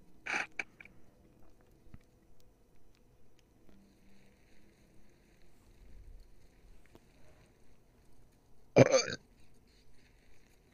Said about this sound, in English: I would rate that burp a 7 out of 10.